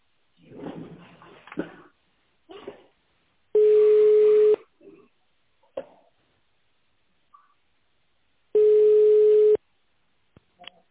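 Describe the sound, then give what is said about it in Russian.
Telephone ringback tones while a call to a company's secretary connects: two steady, single-pitched tones about a second long each, spaced several seconds apart. A recorded voice speaks before them, and faint sounds fall in the gaps. “Дождитесь ответа секретаря или наберите добавочный номер сотрудника. Соединение с секретарем.”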